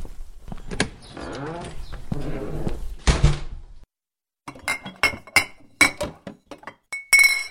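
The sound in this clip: Glass bottles clink as someone searches for a drop of schnapps. A stretch of rummaging gives way to a brief pause, then a quick series of sharp, bright clinks with short glassy ringing.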